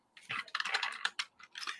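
Keys clatter on a computer keyboard as someone types a web address: a few quick bursts of sharp, rapid clicks separated by short pauses, moderately loud, with no voices.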